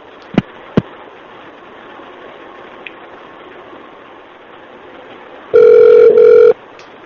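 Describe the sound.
Telephone ringing while a call is transferred on an office phone line: two sharp clicks, a long stretch of quiet line hiss, then one loud buzzing ring burst near the end.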